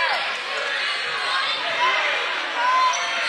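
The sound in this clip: Basketball dribbling on the court during a game, set under a steady crowd murmur with a commentator talking over it.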